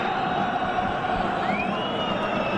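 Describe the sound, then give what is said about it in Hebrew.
Hapoel Beersheba supporters roar in a football stadium late in the match against Beitar: a dense, steady wall of crowd noise and cheering with no clear breaks. “עכשיו שומעים את הקהל הבאר שבעי שדוחף את מרציאנו מאחורי גבו.”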